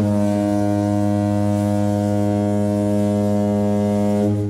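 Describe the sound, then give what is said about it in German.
A deep, foghorn-like spoiler horn sound effect: one loud, continuous blast with rich low harmonics, held at a steady pitch for about four and a half seconds. “Wir machen jetzt kurz das Spoilerhorn.”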